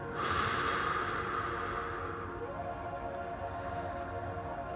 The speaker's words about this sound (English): Just try to inhale with me. And then exhale and relax